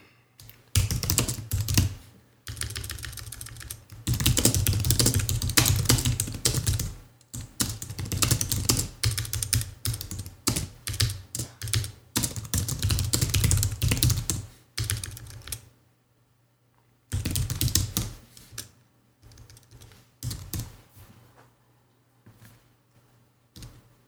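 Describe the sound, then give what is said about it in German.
Fingers type a quick message on a keyboard: many rapid, light keystroke clicks in irregular bursts, broken by short pauses and one longer gap, with no voices. “ich nutze aber die Zeit, um meinem Vater schnell was bei WhatsApp zu schreiben, denn er stellte mir eine Frage.”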